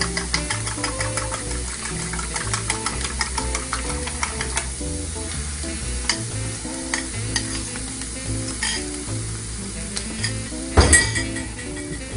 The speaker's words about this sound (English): So I'm going to use my fork, whisk these eggs up real quick.